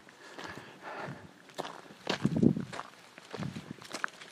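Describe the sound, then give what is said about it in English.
Footsteps of people walking on, a few irregular, soft-to-moderate steps with no talk over them. “We walk on.”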